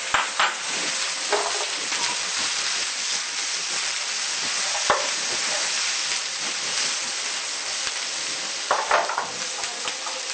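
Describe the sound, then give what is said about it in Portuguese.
Toasted sesame oil sizzles and is stirred in a pan, a steady loud frying hiss with a few sharper scrapes and clicks of the utensil against the pan. “Vamos colocar um pouquinho de óleo de gergelim torrado, metade.”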